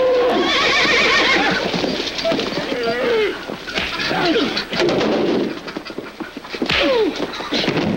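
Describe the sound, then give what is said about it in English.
Alarmed horses and cows trying to break out: several loud, wavering whinnies rise over a dense, noisy commotion with scattered thuds. “Their violence alarms the horses and then the cows. The animals try to break out.”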